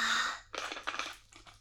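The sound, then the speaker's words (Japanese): Tea is sipped in a few soft, airy slurps, close together and quiet. “一回お茶飲んでいい？”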